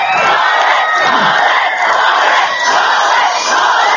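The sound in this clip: A large crowd cheering in central Belgrade to celebrate Novak Djokovic's win in London: a loud, continuous roar of many voices with shouts and whoops, unbroken throughout.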